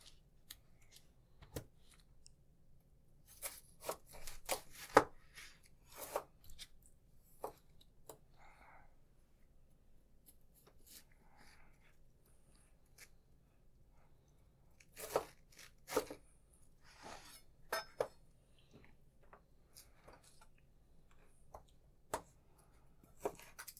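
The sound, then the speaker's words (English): A knife cuts through a pineapple in a series of quiet, irregular crunches and snips, with scattered sharper cuts among softer ones and near silence between them. “Oh, this is. Pineapple's always a satisfying cut, too.”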